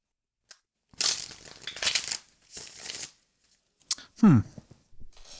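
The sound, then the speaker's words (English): Tarot cards are shuffled before one is pulled, giving a few papery riffling bursts of card noise, followed by a short vocal sound. “But first, we're going to do what we do, pull a tarot card, which we'll talk about at the end of the episode.”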